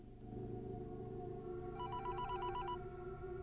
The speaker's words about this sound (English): He pulls the blotter on which sits his ringing mobile towards him and eyes it strangely.